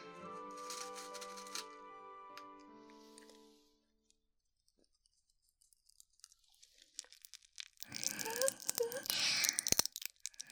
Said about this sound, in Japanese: それが不思議な飴の効果。食べると口の中で弾けて眠くなる音を発生させるんだよ。